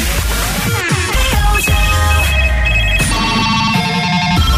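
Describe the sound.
An incoming call rings on a telephone line in a radio studio. Loud, bright ringing tones repeat continuously with no pause.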